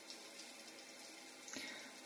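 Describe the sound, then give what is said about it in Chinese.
A shower running behind a closed bathroom door, heard as a faint, continuous hiss of falling water that stays steady throughout. “妈知道你正在洗澡。你开一下门吧。”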